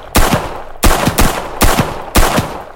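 Gunshots fired in a video game: four sharp, loud blasts at a fairly steady interval, each followed by a short rumbling tail of secondary cracks.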